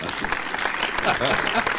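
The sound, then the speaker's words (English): Canned studio audience applause: a short, dense burst of many hands clapping at once, holding steady and fairly loud for about two seconds, with no pauses. “And it's the Rhett Palmer Show. With our new studio audience. Nothing like having a fake audience.”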